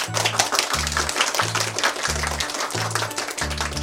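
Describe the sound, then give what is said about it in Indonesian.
Children in a class clapping their hands together, a dense patter of many claps over a few seconds, with a repeating low tone underneath. “Mari bertepuk tangan untuk kita semua.”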